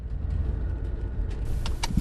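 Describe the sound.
A car drives along the salt flats of a farm property in southern Western Australia, giving a faint, steady low engine and road rumble with no talk.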